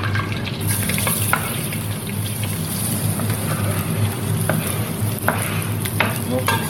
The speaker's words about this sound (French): On va mettre nos oignons.